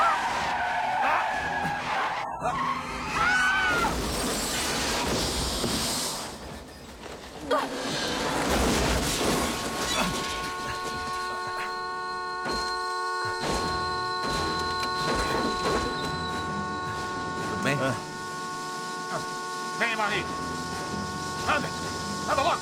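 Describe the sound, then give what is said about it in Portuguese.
A car skids hard with screeching tires and a roaring engine in a dubbed film scene where a driver rams his car into another blocking a gate; the screech sweeps on and off over several seconds, with voices in places. “Sam, nós bloqueamos o portão e ele jogou o carro em cima do nosso.”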